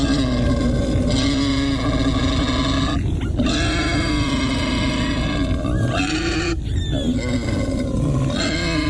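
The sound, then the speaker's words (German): A wild boar grunts: deep, rough, loud grunting and snorting fills the whole stretch almost without pause, dense and harsh, with a couple of brief breaks in the upper rasp. “Also zusammenzucken, erstarren, das ist ein Wildschwein.”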